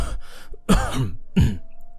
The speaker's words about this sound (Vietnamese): bịt máy, giả vờ ho khủ khủ